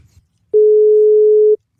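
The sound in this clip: A telephone ringback tone sounds on the line while a call is being placed: one steady, mid-pitched beep of about a second, heard alone.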